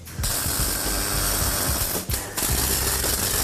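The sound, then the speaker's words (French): Crackling, buzzing arc noise of a pipe being welded to a collar for a car part, loud and steady with a short break partway through before the welding resumes. “On soude le tuyau à la collerette.”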